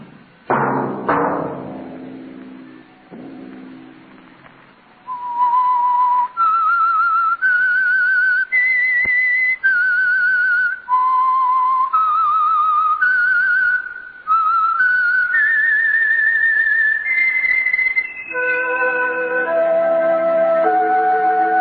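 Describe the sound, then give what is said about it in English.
A loud whistled signal tune plays alone, a melody of many held notes that step up and down in pitch with short gaps between phrases. “That whistle be your signal for the Signal Oil program, The Whistler, each Sunday night at this same time.”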